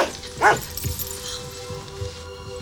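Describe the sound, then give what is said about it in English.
Dogs barking: one short, sharp yip-like bark stands out, followed by a few faint, softer yelps over a low, steady hum. “Are these your lovely dogs? Yes, you're right.”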